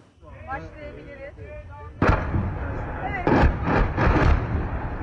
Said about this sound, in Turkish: tatbikatta yerli firmalar tarafından gerçekleştirilen yüksek teknoloji silah sistemleri kullanıldı.